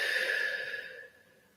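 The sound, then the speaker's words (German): A single deep breath drawn for a guided relaxation exercise, a soft airy rush that is loudest at the start and fades steadily over about a second and a half. “Und richte mal deine Konzentration und deinen Fokus auf deinen Atem. Und atme mal ganz tief ein und wieder aus.”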